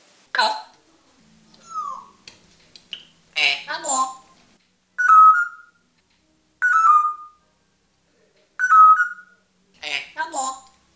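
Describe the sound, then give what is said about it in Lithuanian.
A pet parrot whistles three similar short, clear mid-pitched calls at fairly even intervals, with other brief chirpy vocal sounds between them. “Na, o dabar štai einu pasisveikinti su Lebono papūga. Labas, buba.”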